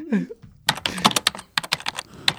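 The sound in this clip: Someone typing on a computer keyboard: a run of many quick, irregular key clicks, crisp and fairly loud, in bursts broken by brief pauses.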